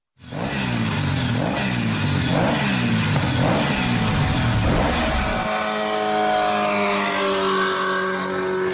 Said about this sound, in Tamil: பாதே கிழிஞ்சிரும் போல. எப்படித்தான் இவ்வளவு வேகமா வண்டி ஓட்டுறாங்களோ!